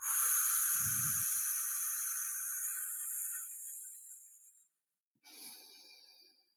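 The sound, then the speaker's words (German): A person blowing all the air out in a breathing exercise: a long, steady, airy exhale lasting several seconds that gradually thins, then a short silence and a second, briefer breath. “Und dann bläst du alle Luft raus.”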